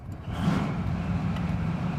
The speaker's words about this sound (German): Die Besatzungen sprinten los, öffnen die Luken der Stahlkolosse. Motor an!